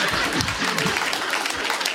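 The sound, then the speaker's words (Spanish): Thin, subdued applause comes from an audience during a comic stage bit. The clapping is soft and fairly flat in level, a sparse, half-hearted patter with no distinct bursts. “Muchas gracias, querida gente, muchas gracias. No hace falta que aplaudan”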